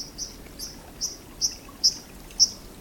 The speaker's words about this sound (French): Un petit oiseau sous-marin dit ruisseau existe bel et bien. Je vous présente le cincle plongeur.